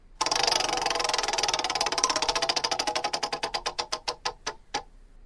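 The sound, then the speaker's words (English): A prize wheel in a radio roulette call-in game spins and clicks. Rapid, dense clicking starts loud, then the clicks spread further and further apart as the wheel slows, stopping just before the end. “Let's spin that wheel.”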